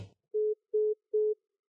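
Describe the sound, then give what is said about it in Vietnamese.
A telephone line tone sounds after a call is hung up: three identical, evenly spaced beeps at one steady mid pitch. A brief faint noise comes just before the first beep. “Điện thoại cúp rất nhanh.”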